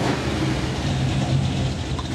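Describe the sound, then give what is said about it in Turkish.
A car engine idles steadily, giving off a loud, constant low rumble with no clear change in pitch and no talk over it. “Çok mutlu bir motor.”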